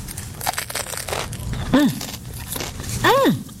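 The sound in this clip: Crunchy bites into crusty bread spread with butter, producing crackling snaps of crust between pauses, while voices speak and hum appreciatively nearby.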